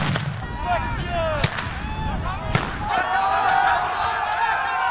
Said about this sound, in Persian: پلیس آنها را با گاز اشکاور و گلوله های رابری نشانه می گیرد.